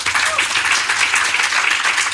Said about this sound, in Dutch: Mag ik applaus